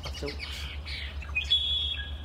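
Birdsong in a marsh on Saturna Island, British Columbia: scattered faint chirps and tweets from several birds, ending with a thin, high, sustained whistle over a low, steady background hum.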